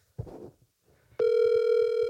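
A telephone call being placed back: a short rustle, then a steady, continuous ringing tone starts abruptly and holds at an even level until the end.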